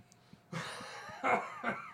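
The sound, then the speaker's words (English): A person chokes and coughs on their own saliva and tongue, making a few strained, raspy vocal bursts with harsh throaty coughs after a quiet start. The sounds are fairly faint. “Me choking to death on my own saliva and tongue”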